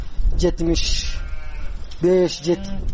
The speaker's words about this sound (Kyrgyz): Мына ушул майда жандык полн эле меники.